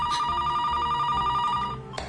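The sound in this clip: A telephone rings in a steady, warbling trill that carries on for most of the moment, then cuts off and leaves a brief quiet with a small knock.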